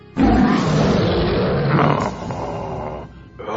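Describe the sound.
A wolf growls as a sound effect in a children's story, a loud, rough, sustained growl that starts abruptly and then tails off toward the end.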